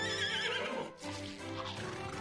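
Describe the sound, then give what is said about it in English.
A pony neighs in a princess's bedroom, where it chews on the curtains. The whinny is loud and harmonic, breaks off briefly midway, then carries on in a second, shakier call, heard alone. “The next morning when she woke up, a pony was chewing on the curtains in her bedroom.”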